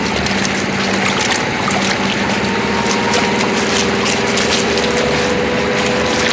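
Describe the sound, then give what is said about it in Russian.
Tractor engine towing a yellow Zaporozhets car through mud: a loud, steady, throbbing diesel drone with a wet, churning hiss running unbroken through the whole stretch. “Трактор тянет по грязи желтый запорожец.”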